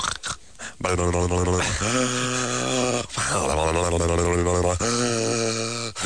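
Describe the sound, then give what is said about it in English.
A man's voice imitates snoring breaths through a deviated septum: a few long, rasping, nasal drawn-out sounds, loud and continuous, each swelling and then cutting off. “Remember what I sound like going down and so on with my deviated septum?”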